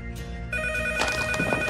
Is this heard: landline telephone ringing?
yes